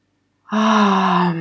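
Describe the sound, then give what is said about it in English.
A deep breath drawn in during a breathing exercise: one long, steady inhale that begins abruptly after a short silence and carries on evenly to the end. “So you breathe in through the three parts and really open your chest, open the front side of your body.”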